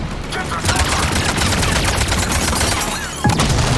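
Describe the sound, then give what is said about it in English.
Rapid video game gunfire with armor-piercing ammunition, a dense rattling stream of sharp shots that continues without a break, loud and close, with a heavier hit near the end. “I'm gonna pull out my armor piercing ammo.”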